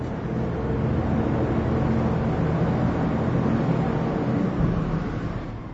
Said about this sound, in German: Dröhnend schafft die Bewetterungsanlage frische Luft ins Bergwerk.